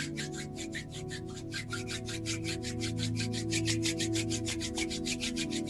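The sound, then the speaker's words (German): Palms of the hands rubbing briskly together during a morning meditation to build warmth, making many rapid, even back-and-forth swishing strokes in a steady rhythm that continues throughout. “Ohne dass du die Augen jetzt öffnest, bring die Hände mal zusammen und fang mal an, die Handflächen aneinander zu reiben.”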